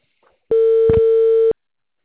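A single telephone call tone sounds loud and steady for about one second, a clean mid-pitched beep that starts and stops abruptly.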